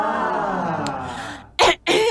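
A person clears their throat with two harsh, rasping bursts close together, loud and abrupt after a quieter stretch of background noise.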